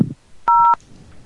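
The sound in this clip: A single short telephone keypad tone from pressing one button in an automated phone menu, a clean steady dual-pitched beep lasting about a third of a second, alone against near silence.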